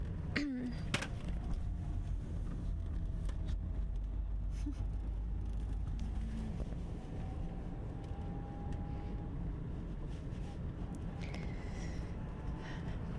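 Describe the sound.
A car drives home from the mountains, its steady road and engine rumble running continuously and evenly through the whole stretch.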